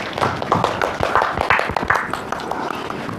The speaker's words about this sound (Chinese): 接下来我们掌声有请小奥哥哥。